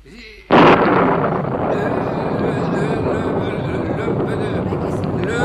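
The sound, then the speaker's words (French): Heavy rain begins abruptly with a loud burst and then continues as a steady, dense hiss of falling water. “C'est la pluie. Merci, mon Dieu, c'est la pluie.”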